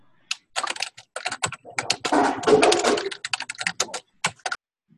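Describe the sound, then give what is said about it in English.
Loud computer keyboard typing during a video call, a dense clatter of many rapid key strikes that thickens into a continuous burst midway, then breaks back into separate clicks. “your keyboard is very loud.”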